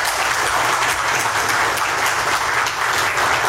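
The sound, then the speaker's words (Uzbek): Applause fills a courtroom as a decision to release a defendant is announced. Many hands clap in a dense, loud, continuous patter that holds steady without pause. “Videodagi tasvirlarda Shuhrat Sadinovning sud zalidan ozod etilishi to'g'risidagi qaror qarsaklar bilan kutib olingani va sud binosi tashqarisida uni 100 ortiq odamlar qarsaklar bilan kutib olgani”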